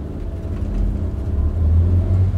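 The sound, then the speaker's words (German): Low engine rumble of American military vehicles pulling away around a watchtower at a walled street checkpoint, a steady deep drone with some whirring that swells slightly louder toward the end, with no voices. “Die Amerikaner fahren wieder an, nach links um den Wachturm herum.”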